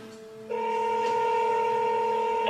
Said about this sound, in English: Please answer the phone. It's ringing.